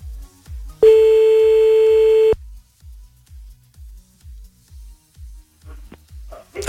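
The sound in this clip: A telephone line tone sounds while a call is placed: one loud, steady, mid-pitched beep holds for about a second and a half, amid a regular series of soft, low pulses that continue before and after it.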